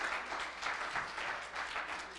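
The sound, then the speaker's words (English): A church audience applauds with a hand clap of praise to the Lord, a steady, fairly soft wash of many hands clapping with no pause. “Then give the Lord a hand clap of praise.”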